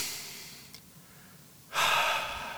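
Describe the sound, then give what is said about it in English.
A deep human breath: after a quiet, faintly hissing stretch, a loud airy rush of breath starts abruptly and holds strongly until the end. “But when do you actually breathe? When do you properly breathe? Like, full-on deep breaths.”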